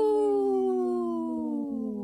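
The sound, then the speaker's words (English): A person howls in imitation of a wolf: a single long, voiced tone that slides steadily downward in pitch and fades slightly at the end. “Good howl, by the way.”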